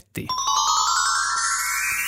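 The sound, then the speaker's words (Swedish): A telephone rings on a Swedish radio call-in show as a listener calls in: one bright, sustained electronic ring tone starts abruptly and holds steady, heard alone. “Det ringer hos Karlavagnen”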